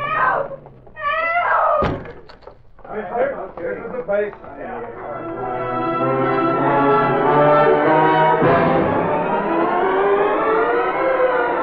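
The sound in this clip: A police siren wails, rising and then holding a loud, sustained tone, after a few short noises and a thud early on.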